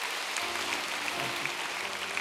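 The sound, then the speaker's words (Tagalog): A church audience claps together during a service, a continuous, even wash of many hands at a moderate level. “Let's clap our hands again to the Lord.”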